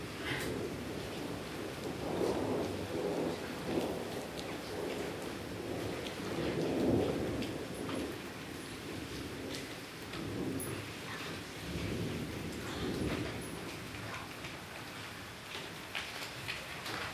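Summer thunderstorm: steady rain patters throughout while low thunder rumbles roll in and fade at intervals, moderately faint and with no voices.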